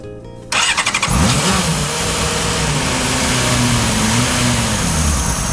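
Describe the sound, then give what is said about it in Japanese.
A car engine started by a driver seated in the cockpit: a brief starter whir, then the engine catches and runs loud with a rasping, motorbike-like tone, its pitch climbing and wavering as it is revved. “はい、じゃあエンジン回します。”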